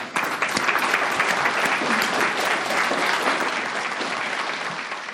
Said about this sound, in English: if everybody could give us a warm welcome for Isabel.